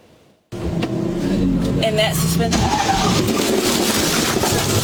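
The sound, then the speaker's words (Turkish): A car engine roars as a driver accelerates hard through an intersection toward a pickup truck. The loud, steady revving begins abruptly after a half-second of near quiet and holds at full level to the end. “Kırmızı ışığı atlatabilmek için gaza yüklenen sürücü kavşakta dönüş yapan kamyonetle çarpıştı.”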